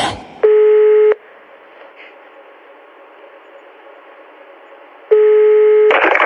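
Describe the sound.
Telephone line tones as a number is called: two steady, buzzing tone bursts roughly four seconds apart, each under a second long, over faint line hiss.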